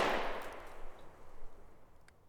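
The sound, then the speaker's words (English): A single gunshot is fired in a bar: one sharp crack with a long fading tail, fairly faint overall. “Then, he pushed his way towards the middle of the bar, jumped up on top of a table, pulled out a gun, and fired.”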